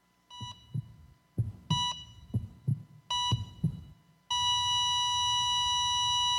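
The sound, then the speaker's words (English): Heart monitor beeping in time with audible heartbeat thumps, a series of short regular beeps that suddenly give way to a single unbroken flat tone, the sound of asystole when the heart has stopped. “She said that means they dead. Yes. It's called asystole.”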